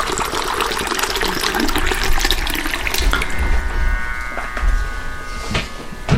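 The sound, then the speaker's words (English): Water poured into a tea glass for brewing a herbal tea bag: a continuous rushing, trickling stream that stays fairly even for about six seconds. “I can take water in a tea glass, like I will do now.”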